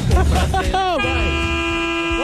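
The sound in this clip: A passing truck sounds its horn in a long, steady, droning blast that holds from midway to the end, after a stretch of talking.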